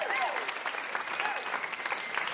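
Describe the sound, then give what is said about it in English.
Applause from a live audience for a guest, a dense, steady clatter of many clapping hands that holds an even loudness from start to finish. “How about a huge round of applause for our VIP, Julie Klausner.”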